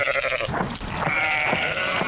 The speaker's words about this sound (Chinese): 荒野之间，山羊成群结队，叫声悠长。